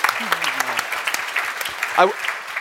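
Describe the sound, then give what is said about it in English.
An audience applauds a speaker at a panel on city climate solutions. The clapping is steady and moderately loud, and a voice speaks over it. “So, give him a hand.”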